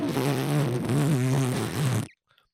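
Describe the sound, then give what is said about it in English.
A voice imitates a huge fart with one sustained, buzzing, wobbling raspberry that lasts about two seconds and is loud and steady. It stops abruptly and is followed by near silence. “And then he would let out a huge fart and be like,”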